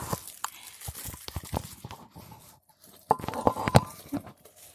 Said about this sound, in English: So I'm unwrapping the unit, all encased in its environmentally friendly plastic.